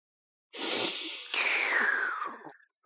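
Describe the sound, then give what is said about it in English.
Deep breaths drawn in as people inhale together: a long airy hiss of about two seconds in two overlapping swells, the second carrying a faint whistling tone that slides downward. “Everybody take a breath.”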